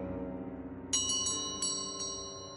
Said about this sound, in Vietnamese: Tối hôm sau, tiếng chuông đồng lại len keng vang lên bên tai cô Tư.